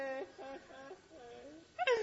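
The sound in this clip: A person wailing in pretend crying makes a few drawn-out, wavering voiced cries, fairly faint, then one louder, higher sob-like burst at the end.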